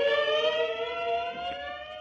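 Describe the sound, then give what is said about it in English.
Police car sirens wail in a loud, steady, high-pitched tone that holds for about two seconds. “Again the sirens roared.”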